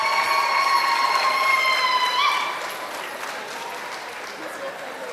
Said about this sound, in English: Give a round of applause for the people who made this happen.